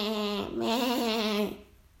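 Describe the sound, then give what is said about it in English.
A person imitates the bleating of goats seen in a driveway near a farm. The voice gives a couple of wavering, nasal bleats with a fluttering pitch, the second longer and louder, then stops. “I see these goats in our driveway, and they looked at me. And they walked away, and they're all, hey, and I just start smiling, I just start copying them”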